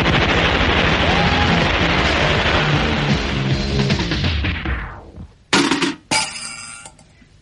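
Gunfire rattles as rapid, dense continuous shots for about five seconds, then trails off. Two short, sharp bursts follow in quick succession before the sound fades away.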